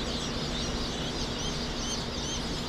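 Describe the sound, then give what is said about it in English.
Thousands of small, fuzzy, freshly hatched chicks peeping at Cackle Hatchery in Lebanon, Missouri, forming a dense, unbroken chorus of high chirps that stays loud and even throughout. “The peeps of thousands of small, fuzzy, freshly hatched chicks drifts through Cackle Hatchery in Lebanon,”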